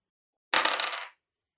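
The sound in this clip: A twenty-sided die rolled during a tabletop role-playing game gives one brief rattling clatter that lasts about half a second and then stops, with silence before and after.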